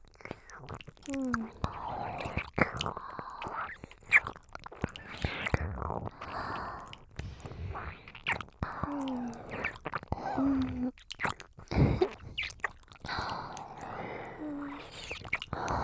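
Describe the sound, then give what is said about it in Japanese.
Wet ear-licking mouth sounds for ASMR, soft slurps and sticky smacking clicks in an irregular stream, with a whispered voice over parts of it. “この耳、私がいっぱいレロレロしてあげますから、気持ちよくなってくださいね。”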